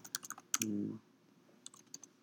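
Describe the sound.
Faint, quick clicks of typing on a computer keyboard come in short irregular bursts, with a brief low hum in between.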